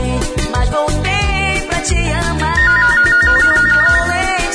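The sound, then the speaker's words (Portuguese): Mobile phone ringtone, a bright electronic melody trilling and warbling in quick repeated notes over a loud, pounding bass-heavy beat at a live show, sustained and steady throughout. “Alô, alô, mas atende esse teu celular.”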